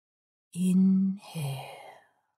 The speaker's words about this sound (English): Inhale and exhale. Inhale. And exhale.